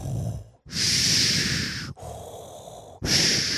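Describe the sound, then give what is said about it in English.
A voice imitates heavy mechanical respirator breathing: loud, hissing drawn breaths in a slow in-and-out rhythm, about three long breaths with brief gaps between them. “you know he's coming when you hear his breathing. He's like, and that's not snoring, that's just him breathing.”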